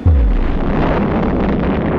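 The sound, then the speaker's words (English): An atomic bomb explosion: a deep, roaring blast that starts with a heavy low boom and continues as a loud, sustained rumble throughout, with no talk. “at 8:15 in the morning of August 6th, Japanese time, the first atomic bomb struck an enemy target.”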